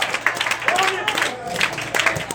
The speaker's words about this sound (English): I need you to clap your hands and stick right back down.